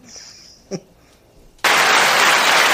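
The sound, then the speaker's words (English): Hands clap in a sudden loud burst of applause that starts abruptly after a quiet stretch with a single faint knock, then continues steady and dense to the end. “I'll clap for that boy.”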